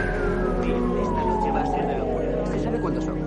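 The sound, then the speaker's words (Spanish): An ambulance siren passes along a city street beside a hospital at night, its wailing tone sliding steadily lower in pitch over a loud, continuous rumble of traffic. “Por una calle junto al hospital, una ambulancia pasa junto a Kimball.”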